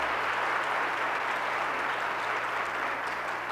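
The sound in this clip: Audience applause welcomes a speaker to a church pulpit in Minneapolis: dense, steady clapping that holds at an even level throughout, with no voices over it.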